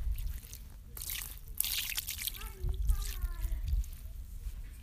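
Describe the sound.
Liquid trickles and drips onto a towel as dye is poured over fabric for tie-dye, a soft, uneven wet splattering with a few louder moments, while a voice is heard partway through.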